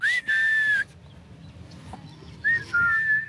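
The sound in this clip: A person whistles to call someone at an alpaca farm: two long, loud, high whistled phrases, each held steady, separated by a quiet pause over faint low background noise.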